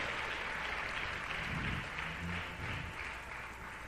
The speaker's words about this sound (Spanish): Dele un aplauso al Rey con todo el corazón.